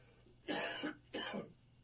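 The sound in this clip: A man coughs twice in quick succession while choking on tea he is drinking. Each cough is a short, harsh burst, and a brief pause separates the two.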